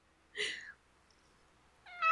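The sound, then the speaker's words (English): Cats meowing: one clear meow, then a quiet pause and a second meow that starts near the end and is cut off, both moderately faint. “We gotta corral the cats. They're not allowed to sit and watch.”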